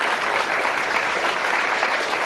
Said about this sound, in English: And then you surround yourself with a bunch of idiots that are going to clap with regardless what you say.